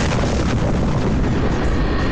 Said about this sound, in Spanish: La primera explosión retumba de montaña en montaña con pavoroso estruendo.